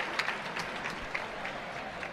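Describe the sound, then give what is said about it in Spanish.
Applause from a bullring crowd for a bullfighter saluting during his lap of the ring, a faint, steady wash of many hands clapping with a few slightly sharper claps standing out. “Ahí saluda desde la primera raya de picar el público que le aplaude.”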